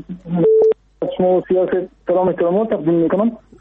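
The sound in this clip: A phone-in call connects on a radio show with a brief steady electronic tone, followed by voices talking over the telephone line.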